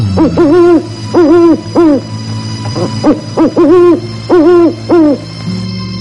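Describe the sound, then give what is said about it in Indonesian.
A night bird calls at night among dry old bushes in the wind, giving many loud, owl-like hoots in short groups, each with a gently arching pitch, over a faint low hum. “Ketika angin malam berdesir mengusik rimbunan semak tua yang mengering, sesekali terdengar sayup jerit burung malam menyeruak membelah.”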